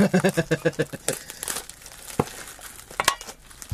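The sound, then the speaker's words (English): Plastic crinkles and tears as red bags from inside a can are ripped open by their tear tabs. A quick run of crackling bursts comes first, then scattered rustles and sharper rips. “inside the can is multiple red bags that you also get to open. All right. I hope they're in incredibly strong plastic as well. They have little tear tabs.”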